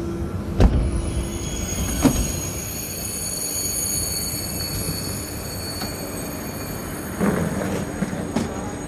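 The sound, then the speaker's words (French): Railway station ambience as a night train to Nice waits, a steady low rumble and hum with high whining tones running throughout, broken by a few sharp knocks and clanks. “Alors il est 20h30, nous sommes ici gare d'Austerlitz et nous allons prendre le train de nuit direction Nice.”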